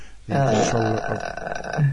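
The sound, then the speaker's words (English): A long, drawn-out human burp, low and rough with a voiced, tonal quality, lasting over a second and fairly loud, followed by a shorter low croak at the end. “Did you just burp then? No. Long one.”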